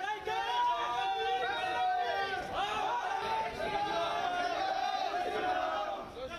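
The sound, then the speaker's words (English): Hindu nationalist protesters chant and shout outside a KFC in the Indian state of Gujarat, a loud, continuous mass of crowd voices without pause. “That's the sound of Hindu nationalist protesters outside a KFC in the Indian state of Gujarat.”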